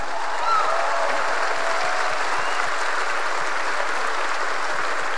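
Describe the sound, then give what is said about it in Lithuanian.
Stormy applause from a crowd at the evening program of a youth day gathering: dense, steady clapping that holds at an even, full level from start to finish. “Audringi plojimai.”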